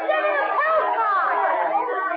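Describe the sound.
Crowd chatter from a mob in a street: many overlapping voices form a dense, steady murmur that holds at an even level throughout.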